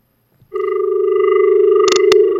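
A telephone line tone after a call is cut off: one steady, unbroken electronic tone holding for about two seconds, with two sharp clicks near the end.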